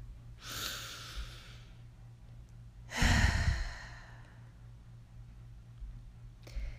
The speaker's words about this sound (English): just close your eyes for a second and let's just take a deep inhale together.